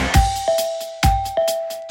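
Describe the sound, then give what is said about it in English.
A doorbell rings in a flat, two loud ding-dong chimes, each a pair of struck tones with a sustained ringing note between them, with no talk. “Du machst die Bude sauber, da läutet's aber Malz.”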